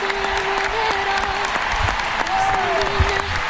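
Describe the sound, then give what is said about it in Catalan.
An audience bursts into a sustained ovation of applause in tribute to a departing football player. Steady, dense clapping continues throughout, with a voice speaking over it. “Ovació cap a Alexia Putellas.”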